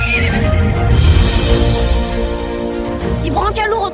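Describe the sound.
A pony neighs in a shrill, wavering whinny toward the end, after a loud, dense stretch of mixed noise.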